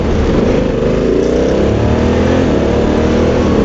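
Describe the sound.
A twist-and-go automatic vehicle's engine accelerates as a continuous drone rising steadily in pitch, heard under broad, loud rushing noise.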